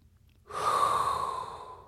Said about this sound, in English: As there is only one thing left to do, and that is inhale a hot breath